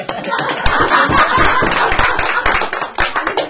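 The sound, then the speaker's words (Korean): Applause from an audience: dense, steady clapping fills the whole stretch at a loud, even level with many overlapping hand claps. “박수”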